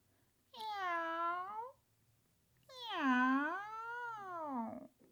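Two cat meows, the first short and the second longer and louder, its pitch dipping and then rising before it trails off. No other sounds are heard between them.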